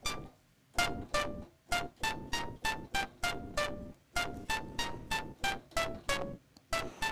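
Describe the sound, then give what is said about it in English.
Synthesizer notes from a patch that emulates the Commodore 64 SID chip, with crunchy lo-fi digital noise. A quick melody of many short notes has sharp, noisy attacks in an uneven rhythm. “I'm going to load up the patch I wanted to play originally, which is called Broken SID from a set of sounds called Commodore 64 sounds for Contact, and this one actually has all the digital noise”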